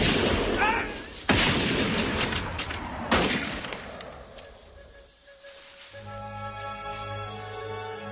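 Gunfire in a battle: two sharp, loud blasts crack over a rumbling, noisy din, which then fades into a quieter, low humming tail.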